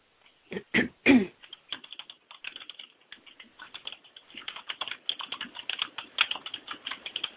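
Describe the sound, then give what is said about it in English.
Typing on a computer keyboard: many quick keystrokes, a few louder isolated taps at first, then a dense, steady run of clicking alone without talk. “I just typed it out, and I'll send it to you so you can remember it for later.”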